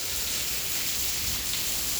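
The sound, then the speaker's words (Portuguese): Steady, heavy rain falling in a dense, even hiss that continues unbroken through the whole clip, with no voices. “Aconselhando na chuva, olha só que maravilha. E pelo jeito essa chuva não vai passar tão cedo.”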